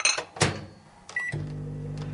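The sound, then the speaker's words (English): A microwave oven heating a glass set on a plate underneath: a few clunks and a short beep, then a steady low hum as it runs. “so I've put a plate underneath the glass because it has a tendency to boil over if you're not very careful. Okay, so as always, if you're dealing with microwaves or any kind of cooking, things can get very hot, so do be very careful. Let's put this in.”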